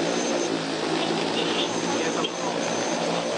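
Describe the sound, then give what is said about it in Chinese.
Agricultural crop-spraying drone in flight, a steady, loud whirring rotor drone that holds an even level throughout with no clear breaks. “现场学习操作质保无人机”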